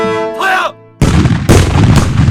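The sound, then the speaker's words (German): Mortar fire at artillery practice in Königstein fortress, with new siege mortars being tested. After a short tonal sound, three heavy booming blasts strike in quick succession within a steady, loud rumble. “Geschützübungen standen auf der Tagesordnung. Feuer! Auf Königstein prüfte man die Durchschlagskraft der neuesten Mörser, die für Festungsbelagerungen vorgesehen waren.”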